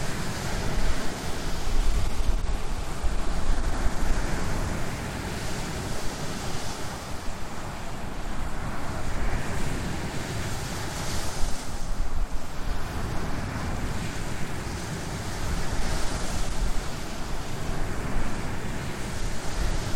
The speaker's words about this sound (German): Doch wenig Geräusche, die toller sind, oder? Als Meeresrauschen.